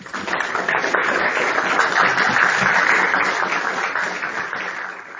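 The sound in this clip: Audience applause welcomes a speaker at an evening lecture on classical theism: a steady, loud wash of clapping that holds for several seconds and then eases slightly toward the end.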